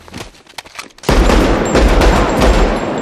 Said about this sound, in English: He shoots the guy in the head.